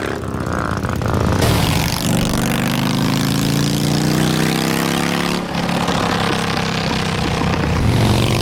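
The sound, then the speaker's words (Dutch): A motorcycle rides with an open exhaust pipe and its silencer removed. It makes a loud, harsh, continuous engine drone that climbs slowly in pitch through the middle before settling into a steady rasp. “dat is het geluid van hè, een motorrijder met een open pijp.”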